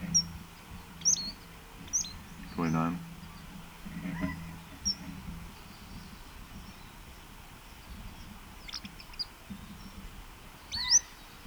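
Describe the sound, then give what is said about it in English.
Faint position-note calls from a single bird: several brief, high chirps spaced irregularly over a quiet background, with a short, lower tonal sound partway through. “Position note by same bird.”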